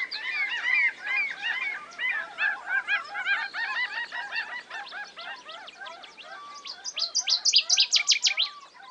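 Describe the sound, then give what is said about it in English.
A dense chorus of many migratory birds at their subarctic nesting grounds. Overlapping honking and chirping calls run throughout, ending in a loud burst of rapid, repeated high calls. “of the world's birds migrate during the short subarctic spring and summer, flying from as far away as Africa and New Zealand to nest and breed in this one small area.”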